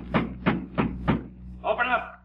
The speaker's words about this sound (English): Hey, what's that? Somebody at the door. Sounds real military, too.